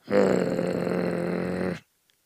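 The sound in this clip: A voice imitates a baby bear growling: one sustained, rough, low growl lasting under two seconds that cuts off abruptly into silence.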